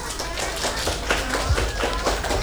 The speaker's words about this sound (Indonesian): Tunjukkan tepuk tangannya.